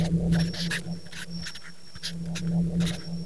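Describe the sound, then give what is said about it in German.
A pencil writing letters in a yellow book: short, scratchy strokes in uneven bursts, with quieter gaps between them and a thin, steady high tone running underneath. “Herr Pink zog das gelbe Buch hervor, befeuchtete die Bleistiftspitze mit der Zunge und malte Buchstaben in das Buch.”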